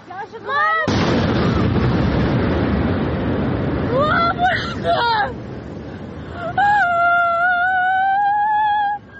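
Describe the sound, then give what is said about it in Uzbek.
A drone strike explosion hits a Moscow City high-rise: a sudden, loud blast gives way to a sustained roaring rumble. Shouting voices are heard before the blast and break through the roar afterward. “Internet tarmoqlarida esa dron hujumi Moskva City binolaridan biriga urilgani aks etgan mana bu video paydo bo'ldi.”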